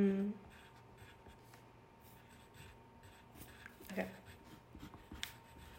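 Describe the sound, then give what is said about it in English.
Faint scratching of a pen on paper as someone draws a bear, soft irregular strokes with quiet talk in the background. “Why are you writing a bear now?”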